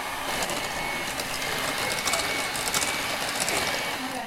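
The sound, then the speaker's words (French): An electric mixer beats egg into carrot cake batter, a steady high buzzing drone with light mechanical rattling that holds throughout. “Ok là, je vais mixer et sur, tout doucement. Mixer l'œuf, l'œuf et le jaune avec le mélange.”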